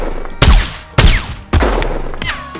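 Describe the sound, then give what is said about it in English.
Gunfire in a small-town shootout between a sheriff and a headhunter: three sharp, loud shots spaced about half a second apart, each followed by a falling whine and a ringing tail, then a softer fourth burst near the end. “The sheriff and the headhunter started going at it, dodging and weaving around each other's shots”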